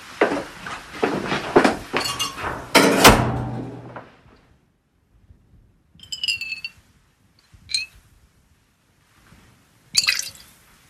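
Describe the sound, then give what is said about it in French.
Glass clinks while essential oil is poured into a beaker and then into a small bottle. Dense handling and pouring noise fills the first few seconds, followed by three separate bright, ringing clinks in near silence. “Là, on verse un peu d'huile essentielle dans le bécher. Et puis comme ça, on va mettre ça dans un petit flacon.”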